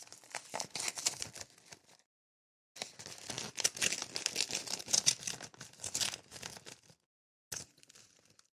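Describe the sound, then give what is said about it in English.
An envelope is torn open, with crisp paper crinkling and ripping in several bursts separated by short pauses, loud and without talk. “We have another envelope here. Let's open that.”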